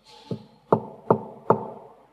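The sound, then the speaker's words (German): Four evenly spaced knocks on a door, the first softer and the next three louder and sharper, heard alone with no voices. “Ich stehe vor der Tür und klopfe an.”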